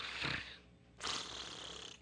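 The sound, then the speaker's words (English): Snoring imitated by a storyteller's voice for a sleeping rhino: two rough, breathy snores, a short one followed by a longer, drawn-out one, with no other talk. “She felt nothing. She just continued snoring.”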